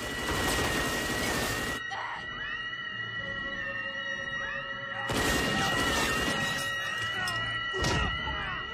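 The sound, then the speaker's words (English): Film gunfire with squibs going off in an action scene: a few loud, crackling bursts of rapid shots separated by quieter stretches, over a steady background. “And this was a little scary with all these squibs going off.”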